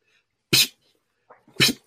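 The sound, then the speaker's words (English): A voice imitates a water spout spraying with sharp, hissing, sneeze-like bursts: a first spurt, a pause with faint breathy sounds, then a second spurt and the start of a third. “that motherfucker's like a water spout. It goes,”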